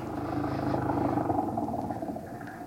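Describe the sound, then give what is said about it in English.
An old flivver car engine gives a steady, low chugging rumble that runs without a break from start to end. “Hop in. It's an old flivver.”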